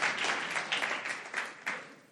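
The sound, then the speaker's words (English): Applause from a church audience, a dense, steady wash of many hands clapping that holds at an even level for the whole stretch, with a few brief louder spikes near the end. “I'll go clap a little bit.”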